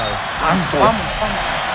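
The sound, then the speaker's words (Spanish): An arena crowd in New Jersey chants "España" at a game, three drawn-out syllables rising above a steady roar of crowd noise. “¡Qué grita Pedro, el público! España, grita la grada de New Jersey.”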